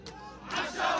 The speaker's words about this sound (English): There's a few police officers surrounded by this mass protest in favor of Hamas, dancing and cheering.